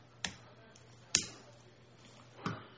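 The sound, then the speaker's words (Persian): Three sparse, sharp clicks of keys pressed on a computer keyboard, faint and evenly spaced over a low steady hum. “من یه چیزی رو میخوام تایپ کنم با همدیگه یک نگاهی بهش بندازیم کلمه اویقور رو با من بچه ها تایپ کنید”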